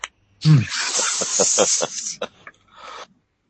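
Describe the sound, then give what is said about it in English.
A person imitates an angry cat's hiss with a loud, breathy rush of air that pulses for nearly two seconds, followed by a few shorter, sharper hissing bursts. “So, you're just hissing at this other cat who opens one eye.”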